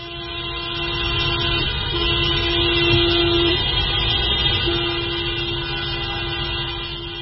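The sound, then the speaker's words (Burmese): Car horns honking continuously during a street protest: sustained, blaring tones held for long stretches with brief breaks, layered over a low, rumbling traffic noise throughout. “မော်တော်ကားတပိတ်ဆန္ဒပြမှုတွေလုပ်ခဲ့ပါတယ်။ကားဟွန်းတန်တွေကိုအဆက်မပြတ်တီးကြတာ။”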